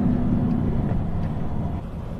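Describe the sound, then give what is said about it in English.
Steady low rumble of a car driving through Nabatea, a flattened town of crushed buildings. The engine and road noise hold an even, droning level throughout. “We're driving through Nabatea now.”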